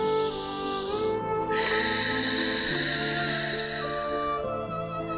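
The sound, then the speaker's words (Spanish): A deep breath taken in and let out during a guided meditation about floating on Lake Titicaca: a soft airy intake, then a longer, fuller breathy exhale, blended with loud sustained musical tones throughout. “Inspira y exhala.”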